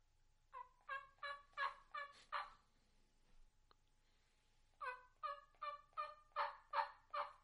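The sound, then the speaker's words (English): Soft wild turkey tree yelps, the first call of the morning: two runs of about half a dozen evenly paced, raspy yelps each, with a short pause between the runs. They sound quiet and alone. “So what does a tree yelp, the first sound of the morning, what does that sound like? For me, it is just a simple yelp that's very soft, just like this.”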